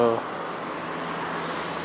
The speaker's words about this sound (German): Ich warte nur, was die Autos weg sind.